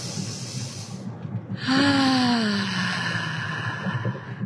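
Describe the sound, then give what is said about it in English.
A deep breath is released as a single long voiced sigh at the close of a guided meditation. It swells, then fades with a gently falling pitch over a low steady hum, with no talking. “Take a deep breath. Take another deep breath.”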